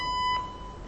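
A single high electronic beep from an automated phone menu system, lasting about a third of a second before it cuts off into faint quiet.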